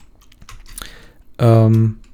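Computer keyboard typing while writing code, with a few scattered key clicks followed by a brief, loud voiced hum near the end.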